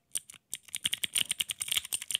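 Keycaps on a glowing keycap toy are pressed in a quick, uneven run of many sharp plastic clicks, like fast typing, quiet and with no voices.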